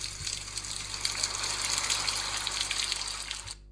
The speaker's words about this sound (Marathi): पहा पहा, पुन्हा पाऊस सुरू झालाय.